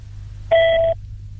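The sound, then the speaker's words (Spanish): A voicemail tone sounds on a phone call: one steady, mid-pitched electronic beep lasting under half a second, rising clearly above a low, constant line hum and then stopping abruptly. “Esta llamada será derivada a un correo de voz después del tono.”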